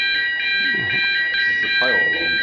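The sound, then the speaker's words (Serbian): A fire alarm sounds during a test as one continuous, loud, high electronic tone that holds steady throughout, while people talk beneath it. “Kažu da je ovo samo proba alarma za za požar, tako da možemo mirno nastaviti, samo da prestane alarm.”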